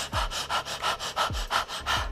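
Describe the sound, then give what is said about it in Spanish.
Open-throat breathing done as a singing exercise, as if holding something hot in the mouth: a quick, even series of airy breaths, each a soft breathy puff with a low rasp, repeating rhythmically. “imaginar que tienes algo caliente en la boca, ¿no? Prueba a respirar con esta sensación.”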